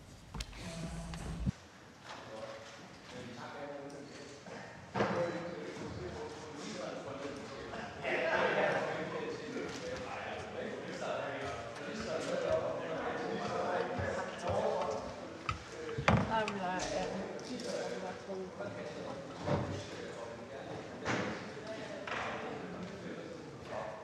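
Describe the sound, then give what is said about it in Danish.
Furniture being rearranged in a hall: scattered knocks, thuds and scrapes of moved pieces come at uneven intervals, under a murmur of people talking. “der skal lige ommøbleres lidt øh, her øh, i salen, så lige en kort pause”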